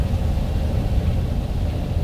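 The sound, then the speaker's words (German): A Volkswagen Beetle arrives at a hotel on an afternoon, heard as a low, steady engine rumble with broad even noise and no distinct events, fairly quiet throughout. “Als sie mit Bobs Käfer am nächsten Nachmittag dort eintrafen, bemerkte es Justus schon von Weitem.”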